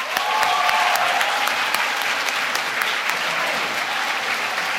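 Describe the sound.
Audience applause welcoming an actor and writer as guest speaker: full, continuous clapping from a large crowd, loud and steady throughout with only slight easing toward the end.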